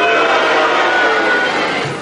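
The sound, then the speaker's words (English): A studio audience at a quiz show cheering and booing together as a vote on an answer: a loud, dense wash of mixed voices that holds steady and tapers slightly at the end. “Would anyone who thinks that is a sufficiently good answer please cheer, and anyone who thinks it was a bad answer boo, and will you do so now?”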